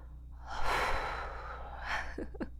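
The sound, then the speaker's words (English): A long, breathy exhale blows smoke into someone's face, followed by a shorter second puff of breath and a couple of small snorting sounds. “What if I just squeezed and blew the smoke right in your face again?”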